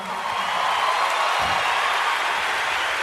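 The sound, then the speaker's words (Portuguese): Applause from a gospel concert audience, honouring an elderly woman in the crowd: a steady, dense wash of clapping that holds at an even level throughout. “Essa mulher de Deus, eu queria pedir um aplauso para ela.”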